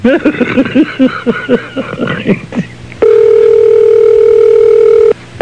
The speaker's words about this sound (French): Le Seigneur a voulu que la ligne se raccroche.